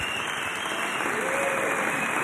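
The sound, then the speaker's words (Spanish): Sustained ovation from a concert audience applauding a three-piece band after the show, a loud and continuous blend of many hands clapping that keeps a steady level from start to finish. “Agradecen el aplauso,”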